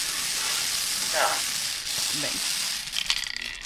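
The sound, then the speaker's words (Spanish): Numbered balls rattle and hiss inside a spinning lottery drum, a steady, dense churning that runs throughout, with a brief voice rising over it. “Venga, dale al bombo. Venga, dispara cuando quieras.”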